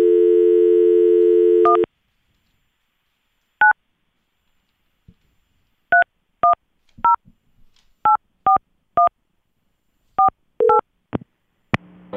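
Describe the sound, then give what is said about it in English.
Telephone dialing tones as a call is placed down to a newsroom: a steady dial tone, then a string of short, sharp keypad beeps at uneven intervals, ending with a couple of clicks. “All right, let's dial him up”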